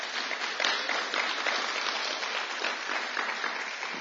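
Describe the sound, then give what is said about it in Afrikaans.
A church audience applauds with dense, steady clapping that fills the whole clip at an even level. “Kom ons gee vir Here 'n groot handklap.”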